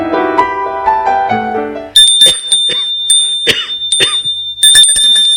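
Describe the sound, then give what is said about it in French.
A bell rings at someone's home as a caller arrives, with bright, metallic strikes repeating over several seconds after a short run of melodic tones. “Il sonne chez elle et le lui demande.”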